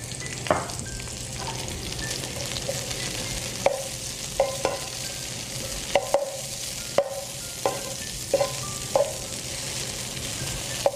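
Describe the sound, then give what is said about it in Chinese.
Hot oil sizzles steadily as dried chilies and Sichuan peppercorns are stir-fried, with many sharp clinks and scrapes of a spatula breaking through the continuous frying hiss. “我们在爆香的时候呢，那个花椒它的味道会开始出来，会有一个清香味跑出来”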